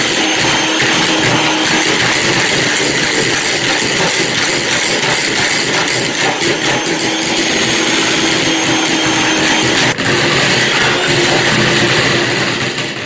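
An electric mixer whips egg whites while sugar is added gradually. A loud, steady whirring motor drone runs throughout, with one brief dip partway through.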